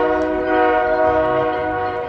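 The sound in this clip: A train horn sounds as a train passes on tracks right behind the outfield wall of a minor-league baseball stadium. The loud, steady chord holds the whole time over a low rumble.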